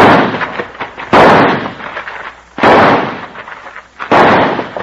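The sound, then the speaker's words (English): Gunshots fired to spoil a gunman's aim: several loud, booming reports spaced about a second and a half apart, each trailing off into a rumbling tail. “Let me blast away at him to spoil his aim while you try to toss that gun through the window.”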